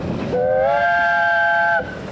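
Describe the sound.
A train on a mountain railway in Snowdonia National Park sounds a steady, multi-toned whistle for about one and a half seconds over a low rolling rumble, then the whistle cuts off.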